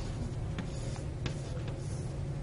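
A pen taps dots onto a drawing surface, producing a few faint, irregular clicks over a steady, loud background hiss.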